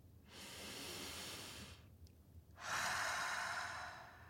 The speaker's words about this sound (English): Maybe you'd like to take a deep breath. Come on, let's do it.